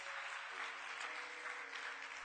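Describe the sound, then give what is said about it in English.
Applause rises from a church audience at the Washington Christian Center, clapping for the day's guests. A soft, continuous wash of clapping runs over a steady held tone underneath. “Can we give all of our guests a round of applause today?”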